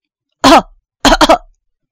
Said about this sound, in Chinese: 一阵咳嗽声响起